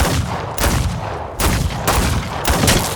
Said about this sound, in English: Six quick shots that tear through the spokes and flange.